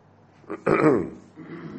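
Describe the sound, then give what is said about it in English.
A single gruff throat clear: a short rasping burst that fades into quieter voiced noise. “Yes. I do the throat clearing. You do the speaking.”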